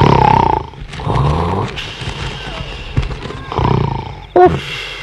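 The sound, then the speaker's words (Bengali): Loud, rasping snoring from a police constable asleep at a remote outpost, a few heavy, rough snores coming in uneven bursts with short pauses between them. “যে রেটে নাক ডাকছে, lungs দুটো না বেরিয়ে আসে।”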